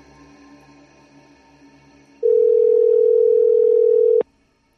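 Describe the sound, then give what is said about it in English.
A telephone dial tone sounds after the phone is picked up: a loud, steady, unbroken hum lasting about two seconds that cuts off sharply with a click. A faint low hum comes before it. “Pick up the phone. Oh, okay, let's see if I can pick up the phone here. This might work.”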